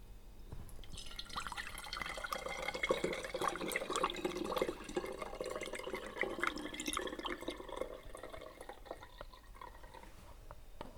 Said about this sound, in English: we're just going to transfer it into a bottle that we can seal. So we've just got a clip-top bottle from Sainsbury's, which we're going to transfer the liquid into via a funnel.